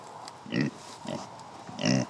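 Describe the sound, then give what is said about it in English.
Pig grunts from a pig kept on a small central Illinois farm of soybeans, timber, cows and pigs: three short, low, rough grunts spaced evenly apart, moderately loud and with no talk. “Come here, pig.”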